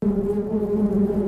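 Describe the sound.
Wasps buzz in a steady, low droning hum that holds an even pitch and level throughout, with no voices.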